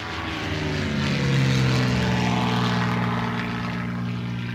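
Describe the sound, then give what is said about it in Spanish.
Propeller drone of light aircraft flying over rural community territory in Oaxaca: a steady, loud, harmonic engine hum that swells slightly partway through and then holds evenly to the end. “Desde enero del año pasado, varias avionetas pasan volando sobre nuestro territorio.”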